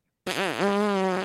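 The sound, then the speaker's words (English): A single fart, a loud buzzy tone about one second long that starts abruptly after silence, dips in pitch twice, then holds steady to the end. “Like when I fart, literally, it's like,”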